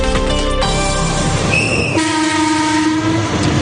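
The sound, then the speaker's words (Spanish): Trains passing through the town of Alfafar: a continuous loud rumble with steady, sustained horn-like tones that hold and then shift partway through. “Este es el sonido de los trenes pasando por el municipio de Alfafar.”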